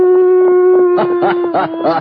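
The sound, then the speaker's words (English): A person imitates a coyote howl. A steady, held vocal tone comes first, then it breaks into a few wavering, warbling yips that rise and fall. No other sounds are heard. “This has to be a coyote. Well, here goes.”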